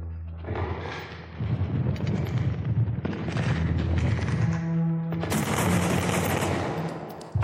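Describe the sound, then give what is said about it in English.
Rapid bursts of gunfire crackle loudly and almost continuously, like machine-gun fire, with brief shifts in the volleys around the third and fifth seconds before the firing carries on to the end. “Shots fired!”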